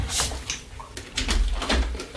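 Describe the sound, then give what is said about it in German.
A window being closed, with a few scattered rattling knocks and soft thuds, then a louder, rumbling bump as it shuts. “Sekunde, ich muss mal gerade hier ein Fenster schließen.”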